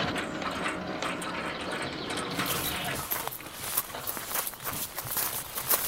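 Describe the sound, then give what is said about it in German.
A gate opens at the entrance to a large house with a steady mechanical rattle and ratcheting clicks, followed by scattered sharper clicks and knocks. “Ah, das Tor geht auf. Man hat uns bemerkt.”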